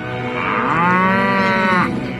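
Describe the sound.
A cow moos once on a farm, a single loud, long bellow rich in harmonics that holds steady for nearly two seconds before stopping, with no other sounds.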